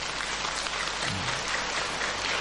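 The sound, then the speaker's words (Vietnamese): Applause from an audience seated at a Buddhist teaching, a dense, steady patter of many hands clapping that holds evenly from start to end with no voices over it. “Nếu quý vị còn mong muốn thì vỗ tay, còn không thì thôi.”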